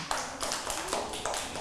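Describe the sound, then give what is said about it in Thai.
Children in a classroom clapping their hands, a faint, dense patter of small claps with a few sharper taps standing out. “ปรบมือให้น้องเอ๋ยหน่อยค่ะ”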